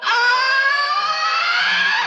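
A person screams helplessly in one sustained, high-pitched cry lasting about two seconds. It is loud and steady, with a slightly wavering pitch, and is heard alone.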